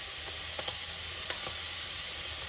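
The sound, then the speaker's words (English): Chopped onion, garlic and tomato sizzle in a pan as the base for a curry: a steady, bright hiss with a few faint crackles and no talk. “as you can see, the onion and tomato have started seasoning, and that's what you exactly want.”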